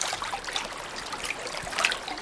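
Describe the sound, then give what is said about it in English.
A hand runs through river water, giving a soft continuous wash of small splashes and trickling. “Moving as close as you can to the river, your hand hovers above the surface before running it through the water,”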